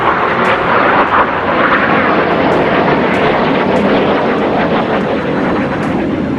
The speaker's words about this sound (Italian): I caccia F-16 controllati dai golpisti avevano iniziato a sorvolare a bassa quota Ankara, seminando il panico tra la gente.